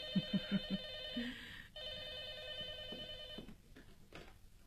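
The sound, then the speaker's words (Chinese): A telephone rings for an overseas call, a faint electronic ring in two long warbling bursts, preceded by a few short soft knocks and followed by quiet clicks. “师母，电话是老爷从香港打来的。”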